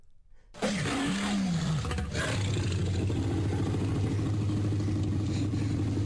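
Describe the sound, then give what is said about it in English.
A movie T-Rex roar built from dog, penguin, tiger, alligator and elephant sounds. It bursts in loud and bellowing, with sweeping tones, then settles into a long, sustained, low rumbling drone that continues to the end without speech. “That's the roar of T-Rex. Oh, T-Rex's roar is a combination of all those.”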